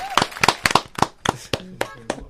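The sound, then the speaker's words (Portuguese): Scattered handclaps, several sharp separate claps in an uneven rhythm rather than a full round of applause, with voices talking between them. “Nossa, aplausos. Ele quer aplausos.”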